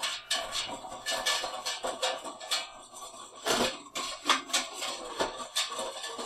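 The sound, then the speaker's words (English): A whisk stirs thick sugar syrup in a pot, producing a steady run of many quick metallic clicks and scrapes in an uneven rhythm, fairly faint and without talk. “Now, I've got a whisk in here.”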